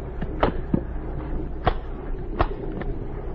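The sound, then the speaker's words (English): Bomb cases being closed make a few sharp clicks and knocks, like lids and latches snapping shut. They come at uneven intervals over a low, steady background hum, with no voices. “What are you doing with those bombs? Looking them over. Well, I've told you how they work. Close the cases. We won't open them again.”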